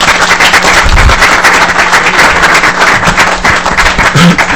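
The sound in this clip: Loud applause fills a committee meeting, steady dense clapping from a group that continues without a break.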